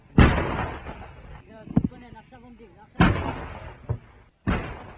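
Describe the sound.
Heavy artillery fire on the Golan Heights, Israeli guns shelling Syrian positions: several deep, loud booming blasts with rumbling decays, spaced by short irregular gaps.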